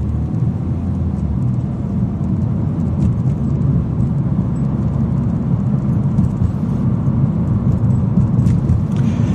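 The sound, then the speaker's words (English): Steady road rumble from a car driving along the Gardiner Expressway through downtown Toronto, a continuous loud low drone of engine and tire noise with a faint hiss above, unchanging throughout and free of voices. “I'm just uh, driving. I drive along the Gardiner Expressway through downtown Toronto from Scarborough to work every day”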